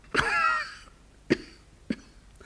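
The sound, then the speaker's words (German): Coughing: one long, rasping voiced cough, then two short, sharp coughs in quick succession, heard alone without speech. “ob Sie was gegen meinen Husten haben.”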